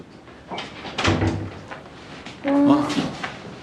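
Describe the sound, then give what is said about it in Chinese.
A door is shut at home with a couple of thuds and clacks, the last one louder, while people talk around it. “赶紧，快点把门关上。”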